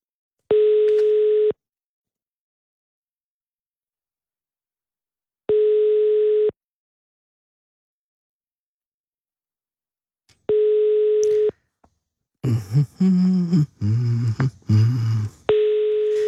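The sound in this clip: Telephone ringback tones while dialling out: three steady, evenly spaced tone bursts of about a second each, separated by long silences, then a recorded voice speaks while a fourth tone sounds.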